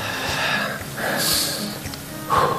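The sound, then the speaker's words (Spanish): Deep, airy breaths taken at a press conference, a few long inhales and exhales in slow succession, fairly loud and breathy with no talk over them. “Voy a respirar un poco más.”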